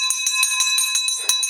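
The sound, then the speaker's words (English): A victory bell rung in celebration of a closed deal, struck in rapid, even repetition with many bright, high metallic hits over a steady ringing tone, fairly loud throughout. “There's the victory bell”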